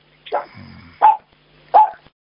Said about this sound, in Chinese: 要命，他看到东西了，你们家的狗看到东西了。